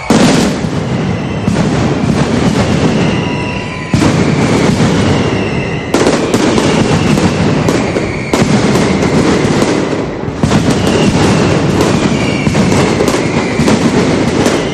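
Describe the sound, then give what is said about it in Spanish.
A mascletà firecracker barrage at the final round of a festival's official contest in a city square: a loud, dense, unbroken crackle of explosions with deep booming underneath, sustained throughout with a few brief dips. “Pedro Luis, cuyos hijos hoy disparaban esa última mascleta del concurso oficial de estas fiestas, que sonaba así.”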